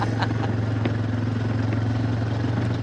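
A quad bike engine runs on a sheep farm, a steady low-pitched idling hum with a constant buzzing drone and light mechanical clatter, loud and unbroken.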